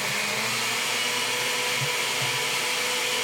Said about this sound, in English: I hope you have a very powerful blender. Salami's not easy to... I hope I do also. Here we go. Turn it up to high.